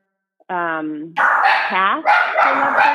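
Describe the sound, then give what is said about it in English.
Dogs barking at someone at the front door: loud, continuous barking and yipping for about two and a half seconds, mixing high-pitched, tonal yelps with rougher, noisier barks. “Sorry, we have apparently someone's at the front door and decided to make the dogs bark.”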